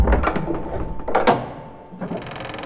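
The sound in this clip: A door's mechanism clunks and thuds in a few loud bursts, with the strongest pair of knocks near the middle, followed by a quieter clatter at the end.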